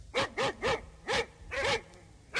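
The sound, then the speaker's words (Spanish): Dogs bark at night in a series of sharp, loud barks that come in irregular bursts, with brief pauses between groups. “Los perros ladran y la noche llegó silbando.”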